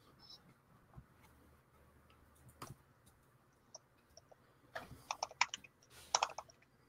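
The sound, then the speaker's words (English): Computer keyboard typing in light, uneven clicks, sparse at first and then a quicker, denser burst of keystrokes near the end, faint against a low steady hum. “I hear you typing.”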